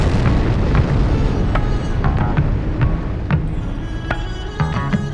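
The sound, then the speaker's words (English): Bass drop in an electronic music track, with deep booming low end pulsing loudly throughout and sharp percussive hits and bright synth tones above. “while you listen to them bass drop.”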